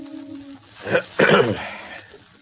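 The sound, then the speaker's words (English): A man clears his throat with a rough, gravelly rasp made of two quick bursts in close succession, moderately loud, with near quiet before and after. “Vincent Kirby clears his throat”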